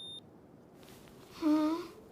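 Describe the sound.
An ear thermometer beeps when its reading is done: one short, steady, fairly low tone of about half a second, clear above a quiet background.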